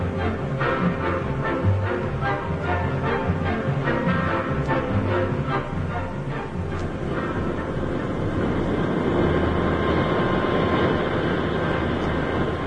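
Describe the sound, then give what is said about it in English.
An airplane takes off with a loud, continuous roar that holds steady throughout and grows slightly fuller toward the end. “It was a pretty smooth takeoff, wasn't it?”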